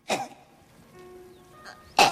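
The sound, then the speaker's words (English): A woman clears her throat in a few short, rough bursts separated by quiet pauses, with the last burst the loudest. “She starts to clear her throat.”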